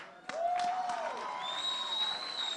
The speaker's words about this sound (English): Ladies and gentlemen, let's put our hands together and welcome the daughter of Major One, Mercy Fu.